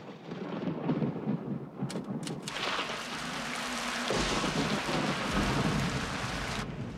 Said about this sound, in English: As rain pours down outside